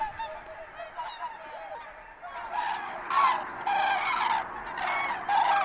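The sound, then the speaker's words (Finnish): Loud, dense honking from large flocks of geese-like water birds gathered on a lake, many overlapping calls forming a continuous clamor that grows louder in the second half, with no voices. “Lahti on täynnään lintujen ääniä. Melu on niin kova, että työsuojelutarkastaja käskisi varmasti muuttaa muualle.”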